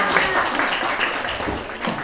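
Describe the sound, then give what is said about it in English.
Audience clapping on request during an interactive session led by a Ghanaian presenter, a dense patter of many hands sustained at a fairly even level throughout. “Clap for me.”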